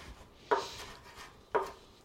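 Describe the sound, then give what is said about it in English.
A knife chops fresh parsley into tiny bits on a cutting board for a farro salad. Two quiet, crisp chops land about a second apart, with no talk. “Finally chopped the parsley into little tiny bits.”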